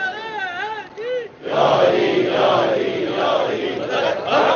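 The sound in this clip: Religious slogans chanted at a majlis gathering: a single voice calls out a melodic phrase, then a large crowd answers loudly in unison, with the massed chant continuing to the end.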